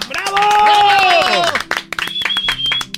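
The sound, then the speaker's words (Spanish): Cheering voices and clapping for a child speaking with Santa on a Christmas show. A loud burst of whoops and claps thins into scattered claps and voices. “Un aplauso.”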